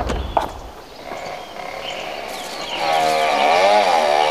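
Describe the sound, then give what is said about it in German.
A vehicle driving away: after a light knock and a quieter stretch, the engine revs and its wavering drone grows louder, holding strong to the end. “Herr Dürrmeier fährt weg.”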